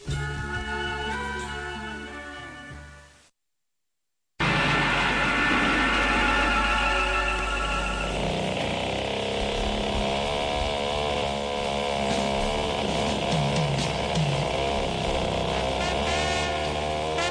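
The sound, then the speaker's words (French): Grand prix race car engines whine steadily from a television, a single car's drone shifting in pitch, with a short dropout of silence early on before the loud racing noise resumes. “Oh là là, il est chiant ce grand prix. Bien, Léon Tom Cruise, une seule voiture, pas de dépassement.”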